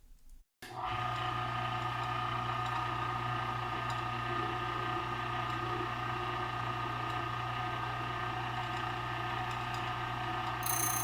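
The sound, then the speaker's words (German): A key cutting machine cuts a KW1 key blank. After a short quiet start, it settles into a loud, steady high-pitched grinding whine that runs unbroken for about ten seconds, with no talk. “And I'm going to load a KW1 blank into the jaws. I'll now do my very best to cut a key safely while working.”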